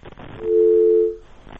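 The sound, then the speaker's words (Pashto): An electronic telephone line tone sounds after a call is cut off: a single steady, sustained tone of under a second. It rises and fades between faint, rougher sounds on either side. “اوهو ټلیفون یې قطع شو”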